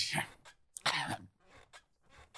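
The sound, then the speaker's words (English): A cough directed at someone's face: a few harsh, breathy bursts of noise, moderately loud, separated by short pauses. “And now you've coughed on his face.”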